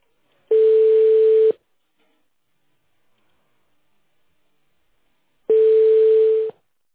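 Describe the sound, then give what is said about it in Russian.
A telephone busy signal sounds as two steady, mid-pitched beeps about a second long, separated by a long silence, with nothing else on the line. “The number is busy.”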